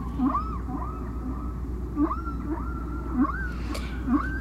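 Humpback whale song played from an old vinyl record, from a side-A track of a distant whale: a repeating series of tonal upsweeping moans paired with short low grunts, steady and moderately loud over a constant low hiss.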